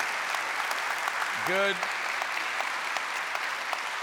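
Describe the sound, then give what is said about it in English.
Warm applause from a church audience at St. Luke's welcoming a guest speaker on a Sunday morning, with steady continuous clapping from start to finish. “Let's put our hands together and give a warm St. Luke's welcome to Anthony Calhoun.”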